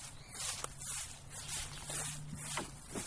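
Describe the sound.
Footsteps of people walking together, a steady series of soft treads over a low electrical hum, with no talk during the steps.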